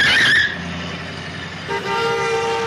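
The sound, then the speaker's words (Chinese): A car nearly crashing: a sharp, high tire squeal at the start, then a loud, sustained car horn blast that holds steady to the end. “我看到那辆车了，不过那辆车差一点就撞到我们了。”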